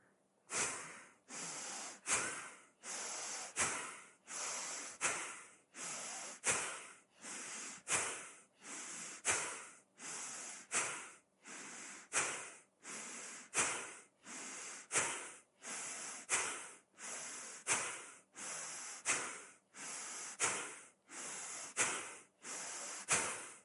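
Forceful yoga power breathing during a rocking bow pose: many strong, hissing breaths in a steady, even rhythm, each swelling sharply and then cutting off before the next, with no talking.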